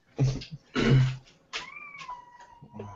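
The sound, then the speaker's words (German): A cat meows once, a drawn-out, mid-pitched call that sags slightly in pitch, after a few short muffled bursts of noise. “war das eine Katze? Ja.”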